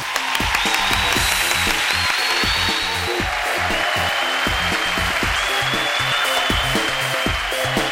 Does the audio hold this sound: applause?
yes